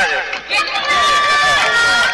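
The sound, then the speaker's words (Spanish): Loud celebratory shouting from the Alianza Río football team, with many overlapping voices cheering and calling out together in a dense, continuous din for about two seconds. “Algarabía de el equipo de Alianza Río.”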